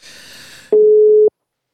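Outgoing telephone call ringing out: a short spell of soft hiss gives way to a single loud, steady mid-pitched tone lasting about half a second, then silence.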